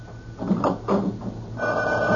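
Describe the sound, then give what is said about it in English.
A telephone by a bed rings in repeated bell bursts over a steady low hum, moderately loud, with no voices present. “Now cut off the phone by the bed. Quick! All right. Will it never stop?”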